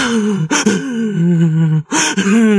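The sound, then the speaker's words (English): A voice imitates the gasping, hyperventilating breaths that come after long crying: a few strained, voiced gasps broken by short pauses, loud and close, with no speech. “like you can't breathe, like you're hyperventilating.”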